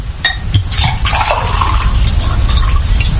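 Water poured from a bottle, a steady loud splashing trickle with scattered drips and light splatters throughout.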